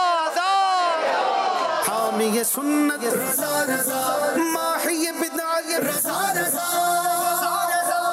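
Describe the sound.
A crowd at a team competition event chants a slogan in loud massed shouts and yells, with voices rising and falling in several bursts over about eight seconds.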